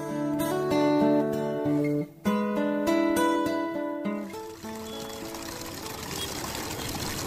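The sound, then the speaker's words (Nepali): Water running from a tap, where a girl is being told not to play. Several seconds of music come first, then a steady, loud rush of running water fills the rest. “छोरी यहाँ धारामा पानी नखेल त नानी बिरामी पर्लाउ”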